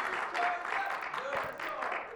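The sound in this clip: Audience applause and cheering welcoming a speaker to the stage at a church sermon gathering: dense, steady clapping that lasts throughout, with a few whoops over it.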